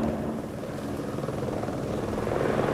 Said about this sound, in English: A helicopter sweeps past the hill following the river, and Pete watches it go.